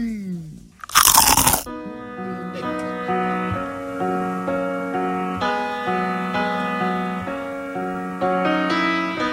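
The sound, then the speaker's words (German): One loud, crisp crunch as someone bites into crispy, well-fried cockroaches. The short burst is followed by sustained music. “brate mir ja die Kakerlaken immer schon zu Hause vor der Sendung, bevor ich hier zur Arbeit fahre, gut an. Schön knusprig müssen sie sein und immer gut durch. So lecker. Lecker, lecker, schmecker, schmecker. Ich beiß da jetzt mal genüsslich rein.”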